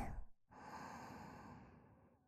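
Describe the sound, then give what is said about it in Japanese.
Someone breathing in and out: a brief breath followed by a long, soft, airy exhale that slowly fades, quiet and alone. “いい？吸って吐いて吸って”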